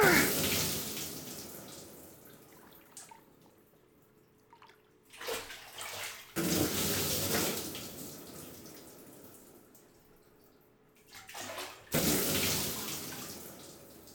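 Water is poured over someone in three separate gushes. Each one starts as a loud splash, then fades into a running trickle, with softer sloshing in between and no talk.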